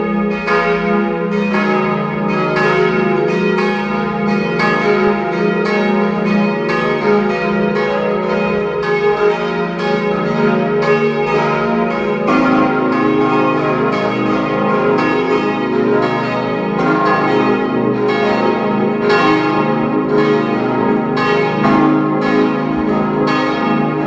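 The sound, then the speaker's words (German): Parish church bells ring at noon in Kirchdorf an der Krems, Upper Austria: many loud, overlapping strikes with a rich, ringing tone that sustain for the whole stretch, with no voices. “Es ist 12 Uhr. Sie hören die Glocken der Pfarrkirche Kirchdorf an der Krems in Oberösterreich.”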